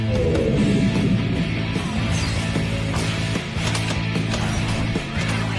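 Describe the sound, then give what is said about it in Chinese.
Mechanical whirring and ratcheting come from a Super Wings cartoon aircraft robot as its systems power up. The sound is a loud, continuous grind of gears with rapid clicking layered on top. “哦耶！所有系统全部启动，启动，启动，启动！”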